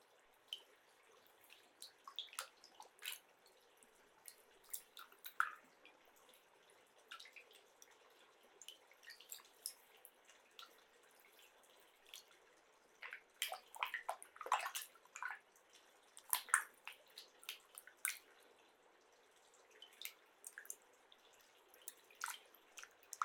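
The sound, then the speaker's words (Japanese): Water splashes and drips as clay is rinsed off: faint, irregular trickles and small splashes come and go in scattered bursts, with quiet gaps between them. “クレイを流して。”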